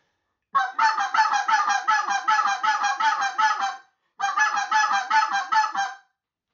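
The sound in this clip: A goose call is blown in a goose-calling lesson, giving two loud runs of rapid, nasal honking notes, the first long and the second shorter, with no other sound.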